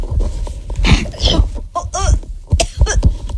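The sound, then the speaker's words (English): A few harsh, broad coughs burst out among people talking and chattering close to the microphone. The coughs come in short, uneven bursts. “You're coughing already”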